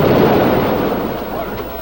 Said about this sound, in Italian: La bomba. Aiuto! Fermi! State fermi! Compagni e amici, state fermi! Calma!